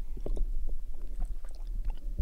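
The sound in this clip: Wet sipping and swallowing sounds as someone drinks the rest of a 50 ml drink: a steady run of soft, faint mouth clicks and gulps with no talk.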